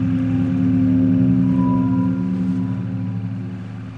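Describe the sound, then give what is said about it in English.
A motorboat engine drones steadily as the boat moves along a murky river. The low, even hum holds throughout and eases slightly toward the end. “The motorboat continues along the murky river.”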